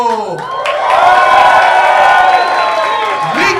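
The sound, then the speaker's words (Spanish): A studio audience at a live comedy show applauds and cheers, the clapping and whooping swelling to a loud peak and holding before easing slightly toward the end. “Un fuerte aplauso a nuestro panel de comediantes”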